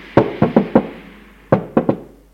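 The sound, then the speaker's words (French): Knocking on a bedroom door: seven sharp, fairly loud raps in two groups, four quick knocks, a short pause, then three more, with nothing else heard. “Une demi-heure plus tard, sa mère frappe à sa chambre.”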